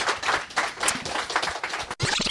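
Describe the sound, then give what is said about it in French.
Applause for guests at the close of a segment on eco-responsible establishments: brisk, uneven clapping in dense bursts, briefly dropping out near the end before picking up again. “On peut les applaudir.”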